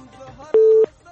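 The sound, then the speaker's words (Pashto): A telephone tone sounds after a call is disconnected, a single short, steady and loud beep, with faint voices just before and after it. “متاسفانه اړیکه پریشوه.”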